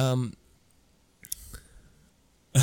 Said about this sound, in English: And I typed racist instead of rapist.